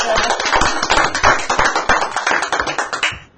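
Hand clapping by a guest: many quick, even claps in a steady beat for about three seconds, then they stop abruptly.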